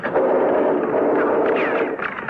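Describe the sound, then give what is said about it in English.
Gunfire from the shore forms a loud, dense, sustained roar of overlapping shots, with no single report standing out and no speech over it. “They're shooting, Effendi. It is coming from the shore.”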